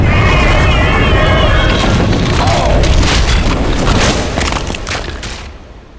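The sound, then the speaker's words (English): A magical backlash explosion rips through a research laboratory full of cauldrons: a loud, deep boom swells into a sustained roaring rumble with crackling bursts, then slowly dies away over the last couple of seconds. “With a bloom of arcane power, the cauldrons swallow them both, drawing them into a portal of silvery confusion before a backlash ripped through the research laboratory.”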